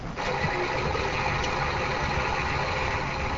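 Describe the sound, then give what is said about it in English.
A fire truck engine on a fire department training road simulator turns over and settles into a loud, steady idling rumble that holds without a break, with no voices heard. “So whenever you're ready to get the truck started,”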